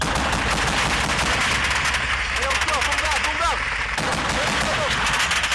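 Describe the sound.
Rapid gunfire from combat footage in Afghanistan crackles steadily throughout in dense, continuous bursts, with people talking over the shooting.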